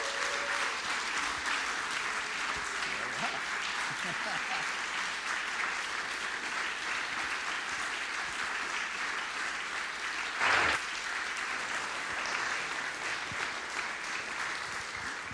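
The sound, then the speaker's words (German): A big round of applause welcomes a pastor in a gospel church. Dense, steady clapping from a crowd stays loud and sustained throughout. “Begrüßen Sie mit einem Riesenapplaus Pastor Klaus Brönhorst.”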